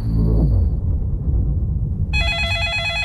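A police telephone rings with a bright, warbling electronic tone that begins about two seconds in and follows a low rumbling background.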